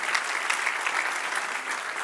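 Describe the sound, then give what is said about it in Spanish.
An audience at a church service applauds with dense, steady clapping that holds at an even level throughout. The clapping is fairly faint and has no break. “Dale un aplauso al que vive.”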